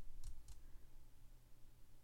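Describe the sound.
Two quick keystrokes on a computer keyboard while someone types an online search, faint and crisp clicks close together near the start, followed by quiet.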